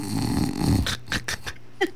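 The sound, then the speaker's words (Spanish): Snoring from someone dozing in a hammock: a long, loud, rasping breath gives way to a few shorter throaty snorts spaced irregularly, each rough and nasal. “Sí, sí, una roncadera bonito.”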